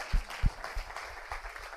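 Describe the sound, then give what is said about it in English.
A small round of applause from a few people, with sparse, uneven claps scattered over a low background hum rather than a dense ovation. “first of all, round of applause.”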